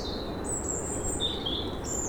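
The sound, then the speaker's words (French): Birds sing outdoors on a sunny mountainside at 1400 m altitude with snow around: a few high, clear whistled notes, some held and some short, over a steady, faint hiss. “Quelques rayons de soleil, le chant des oiseaux.”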